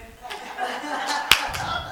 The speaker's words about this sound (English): Y'all know how to clap? Do you know how to clap? Do you? Like this?